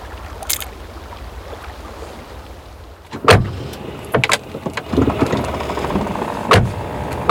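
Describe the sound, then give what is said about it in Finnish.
A neighbour's Opel car drives along with a low, continuous engine rumble, broken by several sharp clunks and knocks at irregular intervals that grow busier in the second half. “Me ajetaan naapurin Opelilla kohti Olhan kotitaloa sammutetuin ajovaloin.”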